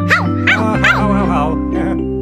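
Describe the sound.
A human voice imitates a dog barking in a few short, pitched, rhythmic syllables. The voice is loud and sung, over a steady low tone.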